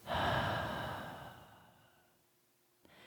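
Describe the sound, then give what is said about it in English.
A person exhales in one long, breathy rush that starts fairly strong and fades gradually over about two seconds, ending in near silence. No words are spoken. “Or I'll say, I'm going to exhale if you'd like to join me. And as I exhale,”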